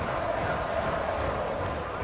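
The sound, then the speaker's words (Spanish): A section of a football stadium crowd applauds and cheers a substitution during a match. The noise is a steady, moderately loud rumble of many people. “Ahí está un sector de la del estadio, le aplaude a Eric Dueñas haciendo el cambio.”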